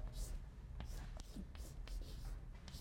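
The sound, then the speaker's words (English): Writing on a board during a lecture gives many quick, light scraping strokes in an uneven rhythm, with faint speech mixed in. “So, am I writing big enough?”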